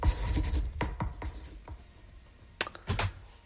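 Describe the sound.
Pen scribbling on paper in a run of quick scratchy strokes, then a quieter lull, followed by a couple more sharp scratches near the end.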